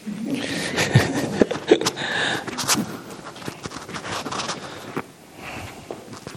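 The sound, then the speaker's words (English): Footsteps fall during a walking meditation demonstration: several slow, soft steps mixed with light rustling and scraping, irregular in loudness, then a quieter stretch toward the end. “I was just thinking, I'll just show you a quick demonstration on how to do walking meditation. And then I'll walk back to my room.”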